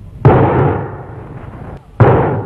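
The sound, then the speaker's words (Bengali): Two loud gunshots crack out roughly 1.75 seconds apart. Each is a sharp, heavy bang followed by a long, slowly fading tail, with a short quiet gap before the second shot. “কি হলো? কে কারে গুলি করলো?”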